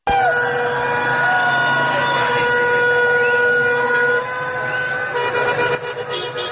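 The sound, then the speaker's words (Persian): Wailing sirens and car horns sound loudly and continuously at a street protest outside the Iranian consulate in Herat. Layered sustained tones overlap, and the level drops slightly after a few seconds. “این صدا از تظاهرات دیروز پیش روی سرقنصلگری ایران در هرات است”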